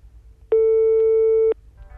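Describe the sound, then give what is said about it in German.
One steady electronic telephone line tone after a number is dialed on a phone with a rotary-style dial. It is a single flat beep lasting about a second, alone over faint background noise. “Den nimmt man so hoch und da sind die Nummern drin und dann kann man wählen. Wie eine alte Wählscheibe ist das.”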